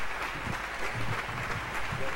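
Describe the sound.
Applause from an audience welcoming Pastor Derek before an evening talk on Proverbs 31: dense, steady clapping from many hands, even in loudness and without a break from start to finish.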